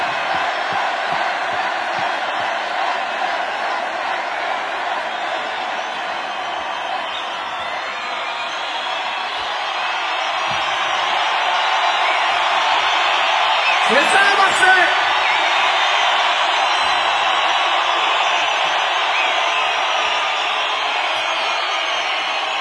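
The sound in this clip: A concert crowd in Marseille cheers and shouts in a sustained, dense roar that swells louder around the middle and holds there to the end.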